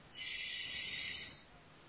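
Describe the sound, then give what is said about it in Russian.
A slow, deep breath drawn in during a calming breathing exercise. It is a single steady, airy hiss lasting over a second, then it fades out, with no talk. “То есть мы делаем медленный глубокий вдох,”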